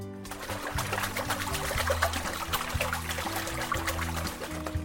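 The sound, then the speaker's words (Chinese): Mung beans being rinsed in clean water, a continuous splashing and trickling with small clicks of beans shifting, heard over soft background music. “首先，第一步，我们要先把绿豆表层的脏污清洗干净，只需要用清水洗就可以喽。”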